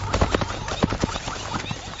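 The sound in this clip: Zebra hooves pounding as the herd, including a mother and her foal, runs: rapid, irregular thudding beats over a dense, steady rumble.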